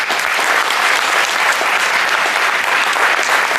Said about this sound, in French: Je vous demande d'applaudir très fort Tania Kassam-Chennai,